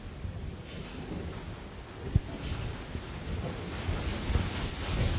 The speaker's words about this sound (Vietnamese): các vị mà trời mưa nhớ sụp cái đó xuống bớt bớt nè, để thôi mưa tạt vô cái bàn.